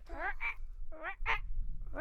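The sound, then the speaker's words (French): A child imitates a frog, voicing several short, nasal croaking calls in an uneven rhythm over a low background rumble. “Bah dis donc, tu fais super bien, la grenouille.”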